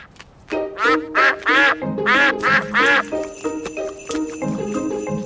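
Duck quacking beside a frozen, icy pond: a quick series of loud, nasal, honking quacks in an uneven rhythm, followed by quieter, fainter sounds.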